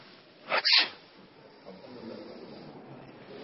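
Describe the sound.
One sharp sneeze bursts out near the start, a loud breathy blast that fades quickly and leaves a faint, low background murmur.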